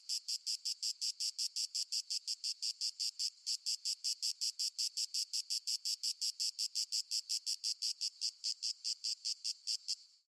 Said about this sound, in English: male cicadas actually make a wide variety of sounds to attract females. They are actually quite loud, often shrill, buzzing, usually would accurately describe their sounds, but they can also make clicking sounds like this.